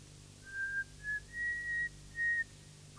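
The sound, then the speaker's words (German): A girl whistles a song idly out of boredom on a lonely railway platform. A few thin, high, clear notes come in short phrases with small gaps between them, soft and alone against a quiet background. “beginnt zu pfeifen, wie ein einsames Mädchen aus Langeweile vor sich hin pfeift”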